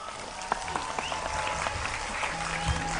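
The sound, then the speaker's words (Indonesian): Applause from a crowd: dense, steady clapping keeps up through the whole stretch at an even loudness, with a faint murmur of voices underneath. “tepuk tangan untuk Sumawono.”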